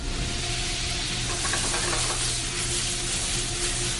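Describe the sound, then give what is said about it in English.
Beef for lomo saltado sautés in a hot pan and is flamed for flavor, giving a steady, even sizzle and hiss with no talk over it. “I start sautéing the meat so that I can get flame, so the meat get a flavor on it.”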